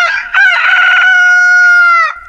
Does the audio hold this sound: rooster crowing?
yes